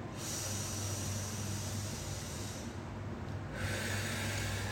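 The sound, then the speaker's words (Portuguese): A deep breath drawn in through the nose and let out through the mouth, a faint, continuous airy rush lasting nearly five seconds with a slight change in texture partway through. “Inspira bem fundo pelo nariz e solta pela boca.”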